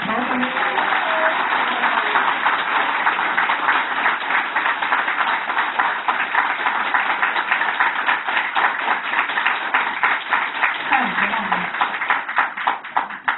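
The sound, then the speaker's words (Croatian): Applause fills a parliament hall: many people clap steadily and densely at a fairly even level for the whole stretch. “Aplauz je prihvatljiv u onom trenutku kad borba bude završena i kad budemo postigli cilj.”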